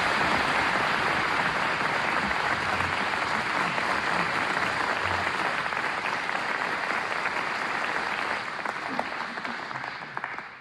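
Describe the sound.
Sustained applause from a studio audience at a Turkish folk music radio program in Istanbul, with dense, even clapping that fills the whole stretch and tapers slightly near the end.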